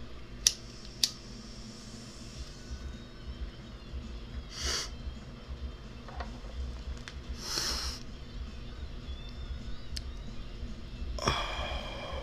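Someone takes a hit from a smoking pipe: faint, sharp clicks at the start, then several soft, airy draws and breathy puffs over low background hiss.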